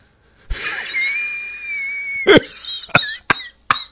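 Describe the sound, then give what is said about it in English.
Raspy wheeze with a high, sustained whistling tone, tied to smoking weed, then four short, harsh coughing bursts in quick succession. “I love the wheeze.”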